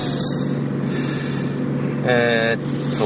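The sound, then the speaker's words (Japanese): Ambient noise inside a car: a steady, continuous low rumble with broad hiss that stays fairly constant throughout. “今日も車内ですね、 はい、 車の中”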